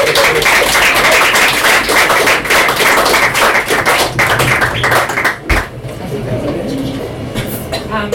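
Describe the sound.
An audience welcomes a guest at a poetry reading with warm applause, dense steady clapping for about five seconds that then drops away as a voice begins.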